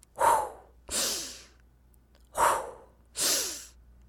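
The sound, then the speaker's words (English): Deep breathing in and out, voiced for a fire-breathing dragon in a children's story: four loud, airy breaths with quiet gaps between them, alone with no talk. “quickly took a deep breath. Breathe out. Breathe in.”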